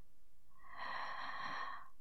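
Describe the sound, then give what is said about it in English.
A person breathes in deeply during a guided breathing exercise: one long, smooth, airy inhale that swells and then fades, faint and alone. “And let them out. Just like that. Breathe in.”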